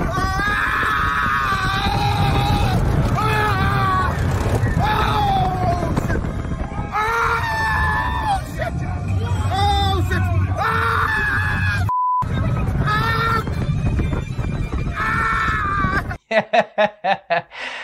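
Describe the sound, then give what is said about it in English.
Riders scream, yell and laugh on a roller coaster in a loud, continuous stream of overlapping voices. A few short, sharp bursts close it out. “this is a clip from us riding a roller coaster before coronavirus.”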